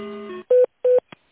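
Electronic dialing tones as a phone call is transferred to a sales department: two steady, evenly spaced beeps of equal pitch, each lasting a fraction of a second, followed by a brief faint blip.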